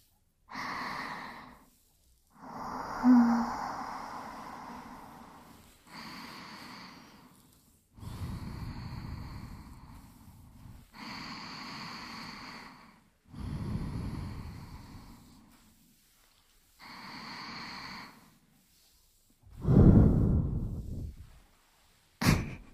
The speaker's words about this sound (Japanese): 深呼吸してください。